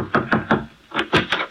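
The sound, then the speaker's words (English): Six firm knocks on a wooden door in two quick groups of three, hollow and evenly spaced, separated by a short pause. “Somebody thumped on my door.”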